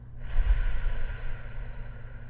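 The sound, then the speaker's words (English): A deep breath during a guided breathing exercise, a faint, steady airy rush with a low rumble, heard alone without talk. “I'm going to invite you to take in a deep breath with me. Release.”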